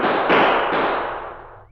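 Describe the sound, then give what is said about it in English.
Gunfire in a gunfight: a few sharp, loud reports follow one another in quick succession, then blur into one long, decaying rumble that fades out within two seconds. “The gunfight continued for 15 minutes.”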